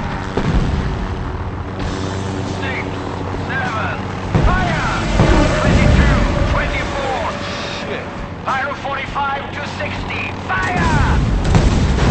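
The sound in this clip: Pyrotechnic explosions fired on a film set: a few heavy booming blasts and rumbling bursts, mixed with wind noise and shouted voices.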